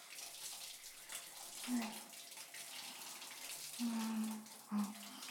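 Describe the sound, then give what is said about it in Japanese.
Hot water runs from a tap in a faint, steady splashing hiss that continues without a break for the whole stretch, with a few short low tones showing over the flow. “お湯だ。あったかい。”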